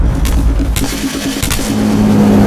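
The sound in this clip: A car being driven, with a steady, loud, low engine rumble and road noise running unbroken through the whole stretch, with no speech over it.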